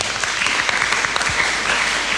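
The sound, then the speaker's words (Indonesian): Applause from an audience at a school event about students' personal branding, a short burst of dense, continuous clapping lasting about two seconds at an even level. “Oke, tepuk tangan untuk Dewa.”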